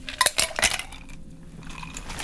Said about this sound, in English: So we have 1 ounce of dark rum, 1 ounce of triple sec, 1/2 ounce of lemon juice. It's all in the shaker. Let's put some ice.